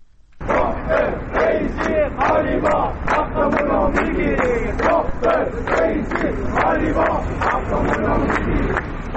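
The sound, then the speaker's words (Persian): A crowd of retirees in Ahvaz chants protest slogans against government pension policy, many voices shouting together in loud, rhythmic bursts that repeat steadily throughout. “این صدای گروهی از بازنشستگان در اهواز است.”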